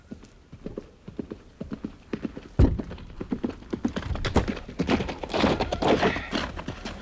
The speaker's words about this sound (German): Majestät, hier mein Pferd.